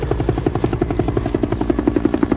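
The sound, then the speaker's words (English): Helicopter flying over jungle in a movie scene: a steady, loud, rapid chopping of rotor blades over a low engine drone, pulsing evenly throughout. “There goes the chopper.”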